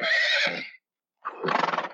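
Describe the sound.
A pony neighs in two loud bursts. A steady high whinny is followed, after a short pause, by a shuddering whinny that trembles with rapid pulses.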